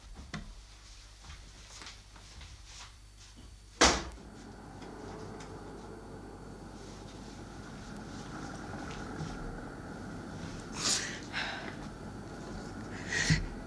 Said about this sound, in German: Einen Moment, Liebste, ich will nur schnell das Fenster öffnen, es ist so heiß hier drin.